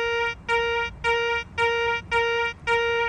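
A metal detector responds to a silver coin laid out for a demonstration with a steady, even pulse of six buzzy, mid-pitched beeps. Each beep carries bright overtones, and the beeps are separated by brief, regular gaps.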